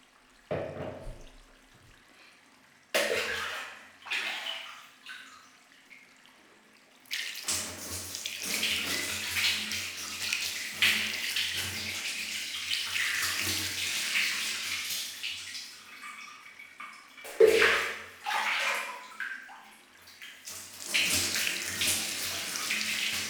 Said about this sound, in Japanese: 洗い終わりましたか？では流していきますね。